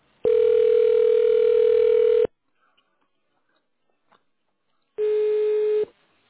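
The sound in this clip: Telephone line tone while a call is transferred to an agent: a steady mid-pitched tone lasting about two seconds, then near silence, then a shorter burst of the same tone.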